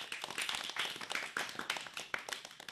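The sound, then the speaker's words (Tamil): Hand clapping from a school audience honoring students, faint and uneven, with separate claps rising and falling in a loose rhythm rather than merging into a roar. “அனைவரும் கரவொளி எழுப்பி அவர்களுக்கு நமது வாழ்த்துக்களை தெரிவிப்போம்.”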